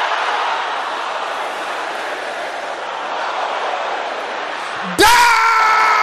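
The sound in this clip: A church audience shouts together during a prayer service, making a dense, sustained roar of many voices for about five seconds. A louder single voice then breaks in abruptly.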